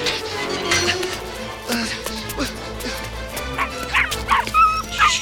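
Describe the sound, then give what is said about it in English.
Dalmatian puppies yip and whimper while squeezing under a fence, giving many high, thin cries in short bursts over a low, steady background that grow louder and more frequent toward the end. “Dalmatian puppies squeeze under a fence.”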